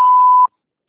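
A voicemail beep tone sounds once: a single clean, steady, mid-pitched tone lasting about half a second, then cutting off abruptly into silence.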